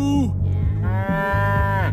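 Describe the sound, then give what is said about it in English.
A cow moos loudly in long, drawn-out harmonic calls, the low bellow rising and falling slightly, with no other sound around it. “I like the way you moo.”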